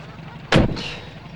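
A car door being shut: one heavy, sharp thud that stands out loudly against a quiet background, followed by a short fading rattle.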